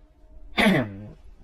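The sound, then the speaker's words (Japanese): Someone clears their throat once because of phlegm stuck in it. A short, rough burst trails into a lower, gravelly rasp, fairly quiet and heard alone. “失礼。痰が喉に詰まっています。”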